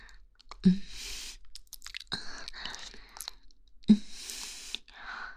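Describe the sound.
Food being chewed, with crunchy, clicking mouth sounds and two sharper, louder bites that stand out among quieter chewing.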